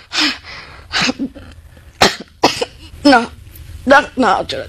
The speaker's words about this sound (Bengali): একটু কাশি হয়েছে তো